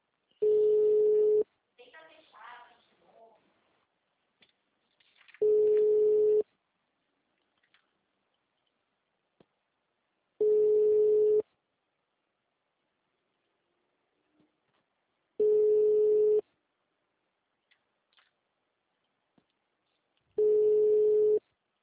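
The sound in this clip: Ringback tone of an unanswered telephone call: five steady, mid-pitched tones, each about one second long and spaced about five seconds apart. Silence lies between them, with brief talk after the first tone.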